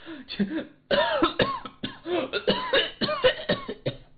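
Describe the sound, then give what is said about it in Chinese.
A man coughs hard and over and over, wheezing and unable to speak, in a dense run of many rough, strained bursts with raspy breaths between, loud and with no other sound. “他越着急咳嗽的越厉害，喘的越厉害，简直没办法说出话来。”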